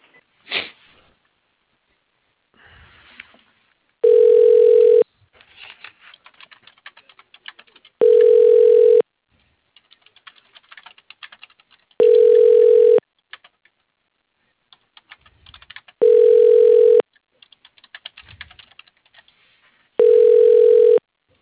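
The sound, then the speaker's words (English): Ringback tones of a phone call being transferred to voicemail: five steady, evenly spaced beeps about four seconds apart, with faint clicks and rustling in the gaps. “I can transfer you to his voicemail.”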